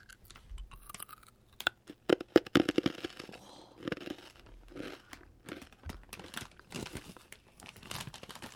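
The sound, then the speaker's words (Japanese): Rice crackers (senbei) being bitten and chewed, many sharp dry crunches and crackles in an irregular rhythm, loud against a quiet background with no talking. “私このすごい好きなおせんべいなんですけど、おせんべいとかそのお菓子を噛む音”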